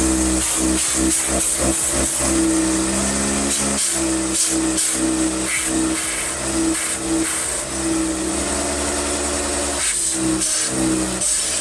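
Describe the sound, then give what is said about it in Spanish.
Compressed air from a blow gun hisses over a solar inverter during maintenance cleaning, many short forceful bursts of air over a steady mechanical hum. “Ahora voy a soplarle con la pistola.”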